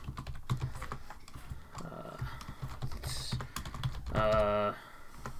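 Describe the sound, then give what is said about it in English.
Fingers type on a computer keyboard in an irregular run of quick, light clicks. A brief voice sounds near the end. “Let me just type up some names. Column style.”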